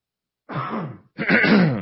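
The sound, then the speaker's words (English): A person clears their throat in two gruff, rasping bursts separated by a short pause, the second slightly louder, with no speech around them. “also I got to clear my throat.”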